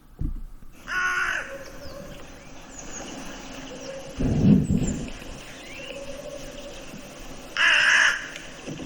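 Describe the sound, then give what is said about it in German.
A hooded crow calls with a few harsh, rasping caws, separated by pauses, over a faint, steady background hiss. “Ich lasse die Nebelkrähe mal abspielen. So hört sie sich an.”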